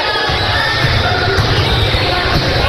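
A basketball is dribbled on a gym court during a high school girls' game, the bounces sitting under a steady, dense crowd roar throughout.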